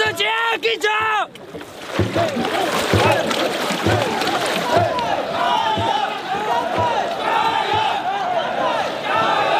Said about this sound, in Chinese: 此起彼伏的加油声是沿途乡亲们送来的鼓励